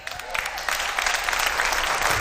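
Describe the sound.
Audience clapping at a religious talk after a prayer, a dense patter that grows fuller and slightly louder as it continues.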